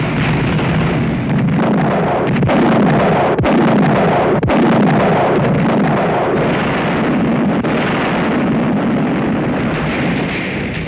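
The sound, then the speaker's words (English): Artillery firing and explosions from a tank battle scene in a 1970 war film, a dense, loud, continuous rumble punctuated by many sharp blasts. “in a wonderfully staged action scene by director Franklin J. Schaffner, Patton and Rommel fight. Commence firing. Fire at will.”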